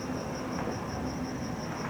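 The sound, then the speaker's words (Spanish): Crickets chirping in Mexico City after rain, a steady high pulsing trill repeating evenly over a low background hum. “es un paisaje sonoro interesante este que se escucha ahora, combinado con las demás capas, los grillos, el agua goteando por la lluvia que cayó”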